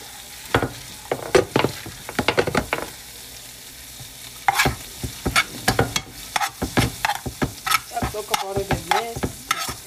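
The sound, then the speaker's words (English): Butter sizzles in a pot while eggs are finished, with a utensil scraping and stirring in many quick, uneven bursts over a soft, steady frying hiss. “This big, like, chunk of butter to put in this pot to finish these eggs.”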